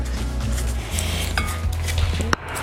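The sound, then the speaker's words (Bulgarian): Dry ingredients being mixed in a bowl while cooking, a continuous scraping, rustling clatter of utensil against dish over a low hum, ending with one sharp knock. “Смесваме си сухите съставки, внимателно.”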